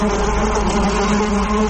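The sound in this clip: Honeybees buzz in a dense, continuous drone that stays loud and even for the whole moment, with no voices and no breaks in the hum.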